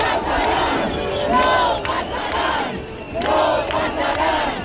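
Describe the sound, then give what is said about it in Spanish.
A protest crowd at a housing eviction chants "no pasarán" in loud unison. The chant swells and subsides in repeated waves, with brief gaps between the rounds of shouting. “Este no pasarán que proclamaban cuando se ha colado una persona con una bandera de España, con un lema, y bueno, la han intentado echar.”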